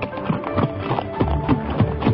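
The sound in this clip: Hooves of a galloping horse pound out a quick, even clip-clop rhythm with many beats at a steady pace and no voices.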